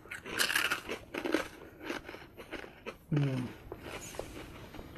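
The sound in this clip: Loud, crisp crunching and chewing of protein puffs from an MRE ration, with many irregular bites in quick succession and a brief hummed voice midway.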